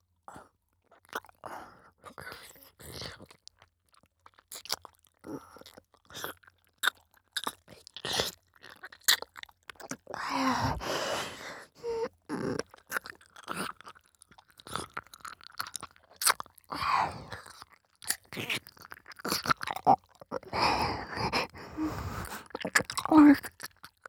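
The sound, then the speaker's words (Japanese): Gentle mouth nibbling imitates pretend ear biting in an intimate close-up roleplay: many irregular wet smacks, soft crunches and clicks, some clustered in quick bursts, alongside quiet breathy whispering. “大丈夫。本当に食べたりしないよ。甘噛みしてるだけで楽しい。”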